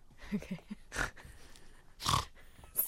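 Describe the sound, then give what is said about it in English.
A person gives a few short nasal snorts, breathy and faint, in irregularly spaced bursts with quiet low sounds between them. “Sorry, stop snorting.”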